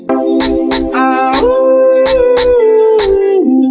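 A dog-howl effect in a Portuguese-language song: a long, sustained tonal howl that holds steady and then steps down in pitch near the end, over a regular thumping drum beat.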